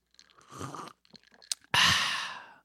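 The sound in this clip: Ice cubes in a beverage being sipped: faint soft rustling and small clicks come first, then a sharp tick and a loud burst of bright rattling and crunching that slowly fades.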